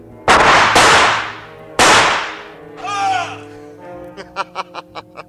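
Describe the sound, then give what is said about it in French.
Two loud, sharp gunshots fired at a hiding bandit, each a sudden blast with a short ringing tail, followed by a brief run of laughter. “Et je vais te montrer que je tire mieux que toi!”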